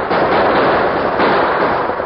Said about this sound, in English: It's too late. They're lit. Get over to the side or we'll be killed. The premature explosion at the gap threw the rustlers into a panic.